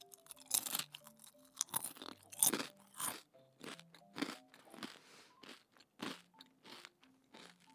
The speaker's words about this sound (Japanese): ライスペーパーと中身があったらできますさあ早速食べてみたいと思いますいただきますうわパリパリ